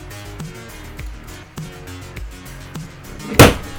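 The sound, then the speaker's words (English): A vape is knocked over with one sharp, loud clatter near the end, following a series of softer, evenly spaced thumps. “Ew, I knocked my vape over.”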